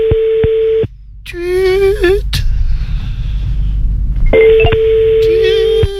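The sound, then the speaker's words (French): Electronic notification tone sounds when a microphone is muted: a steady, clear, mid-pitched beep at the start and another at the end, with a voice speaking in between. “Oh, une petite notification. Non, c'est quand tu coupes le micro, ça. Ouais, c'est petit micro coupé, en effet, bien vu.”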